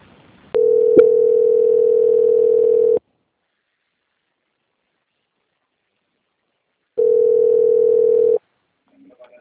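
A telephone line tone plays while a bank's call is transferred: two long, steady mid-pitched tones separated by several seconds of silence, with a brief click early in the first tone.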